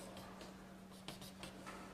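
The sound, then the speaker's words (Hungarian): Scratchy strokes of a diagram being drawn on a board during a lecture on electromagnetic field lines, a series of short, faint scraping marks over a steady low hum. “Aztán rajzolok ide még egy félperiódust.”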